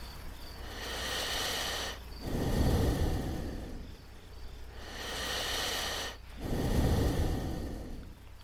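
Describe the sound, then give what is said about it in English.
Slow, deep breathing in two full cycles, each a long airy inhale followed by a lower, fuller exhale, steady and unhurried with no talking. “Let's try again. Let's just feel one breath.”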